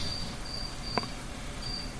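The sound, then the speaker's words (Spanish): A cricket chirping in faint, high, thin trills that recur in a few short bursts over a steady background hiss, with one brief click near the middle. “Hay un grillo ahí. Hay un grillo.”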